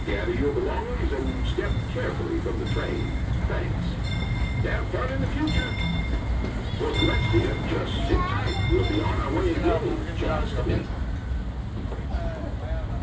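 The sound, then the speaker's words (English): Theme-park ride train arriving at a station, a steady low rumble and rattle of wheels that carries on throughout, with people talking over it. “we're now arriving at Tomorrowland Station. If you're going to leave us here, just stay seated till we come to a full stop.”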